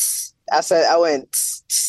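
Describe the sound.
A voice imitates a hi-hat cymbal with three sharp, hissy "tss" bursts. A short voiced vocal sound falls between the first and second bursts, and the hisses stand out crisp and bright against silence.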